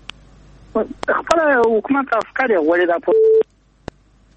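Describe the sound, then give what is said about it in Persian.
A telephone call disconnects: a voice talks over a phone line, then a single short steady beep sounds and near silence follows with a couple of faint clicks. “خب تماس قطع شد.”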